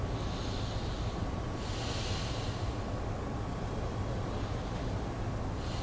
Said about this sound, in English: take a couple of very quick, big breaths through the nostrils. Just even a little loudly.